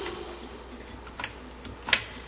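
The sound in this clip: Keys are pressed on a computer keyboard: a few faint, isolated clicks over a low steady hiss, the sharpest one near the end.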